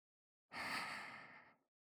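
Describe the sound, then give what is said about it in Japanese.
A single soft breath blown gently into the ear, a quiet, airy exhale lasting about a second that tapers away into silence. “私の息を奥まで、ふうふう送り込んであげます。”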